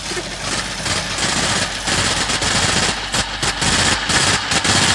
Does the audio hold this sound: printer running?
yes